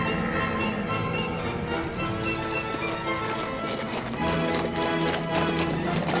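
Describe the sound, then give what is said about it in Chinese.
Hooves of camels ridden by a group of merchants arriving at a Persian market form a dense, steady clatter that keeps up throughout, thick with layered noise. “前面有一群人骑着骆驼要来了。”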